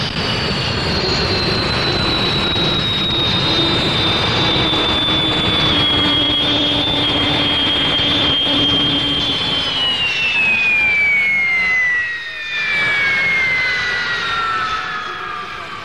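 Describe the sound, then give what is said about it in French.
Jet engine nozzles of a Super Mystère 4B1 fighter roar loudly and steadily, with a thin high whine riding on top that slides lower in pitch during the later part. The roar dips briefly before swelling again. “Vous entendez les tuyères du Super Mystère 4B1.”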